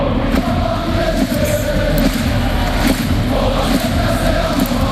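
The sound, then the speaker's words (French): Paris football supporters from the Auteuil stand chant together in a stadium. The sound is a dense, continuous crowd roar that stays loud and steady throughout, with the words blurred and hard to make out. “Voilà, c'est le chant des supporters. Bon, on entend mal les paroles.”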